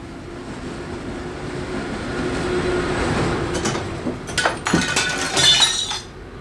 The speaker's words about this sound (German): Nach Einschlagen der Scheibe in einer Hoftür gelangten die Täter ohne Mühe in den rückwärtigen Raum